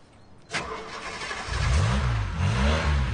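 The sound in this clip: A car engine starting: a sudden burst, then a low engine rumble from about midway that swells and wavers in pitch as it revs, with no voices.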